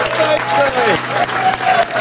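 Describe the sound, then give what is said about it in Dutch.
Audience applause rolls on as a dense, steady wash of clapping, with a voice speaking over it throughout. “Ah, dames en heren, maak een grote applaus voor”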